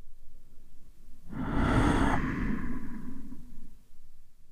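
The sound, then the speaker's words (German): A single deep breath during a guided breathing exercise: a loud, airy rush of air that swells and then softens into a quieter, lingering exhale over a couple of seconds, above a faint steady background hum. “Atme tief ein. Und atme tief aus.”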